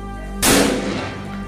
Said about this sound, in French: Il écarte les rideaux et tire.